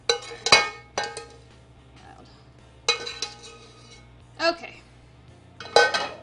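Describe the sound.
Fork clinking against a bowl while mixing egg yolks into a warm honey mixture for a pie filling, a few bright, ringing metallic taps spaced irregularly with quiet gaps between them.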